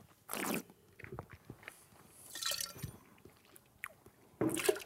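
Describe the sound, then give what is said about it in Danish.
Someone bites into and chews a small lamb chop, giving a few moist, crunchy bursts of biting and squishing between quiet stretches of soft chewing. The sounds are faint. “Ej, jeg kan godt lige spise en lille lammekotlet lige nu. Ja. Haps.”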